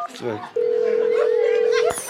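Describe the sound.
A steady telephone dial tone on a call being placed to a dentist holds one even pitch for over a second, then cuts off abruptly, with voices talking faintly around it.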